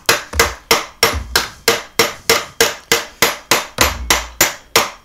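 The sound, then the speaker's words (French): A chipping hammer knocks slag off a stick-electrode weld: many sharp, loud metallic strikes in a quick, fairly steady rhythm, each ringing briefly before the next blow, with no talking. “La soudure, je vais la piquer avec un marteau à piquer les soudures.”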